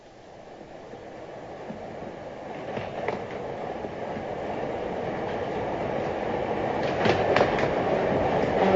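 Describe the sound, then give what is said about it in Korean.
Train running on railway tracks, a steady rumbling roar that slowly grows louder, with faint rhythmic clicks of the wheels over the rails. “그 주제를 뒷받침해주는 것이 바로 기차와 철도였습니다.”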